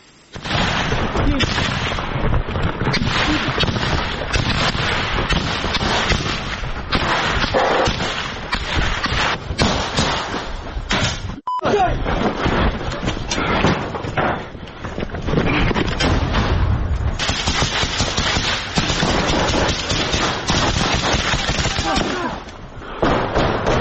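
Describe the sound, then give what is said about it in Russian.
Small-arms gunfire in a firefight during the defence of Kupiansk, with fire from special operations regiment soldiers: loud, dense, nearly unbroken crackle and bursts of shots, with voices heard through it. “Это стрелковый бой, который ведут бойцы 8-го полка сил специальных операций.”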